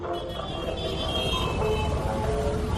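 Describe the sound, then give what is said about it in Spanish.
About 900 motorcyclists ride through the streets of Burgos in a dense, continuous roar of engines that stays loud and steady throughout. “Este es el sonido de los cerca de 900 moteros que recorrieron ayer las calles de Burgos”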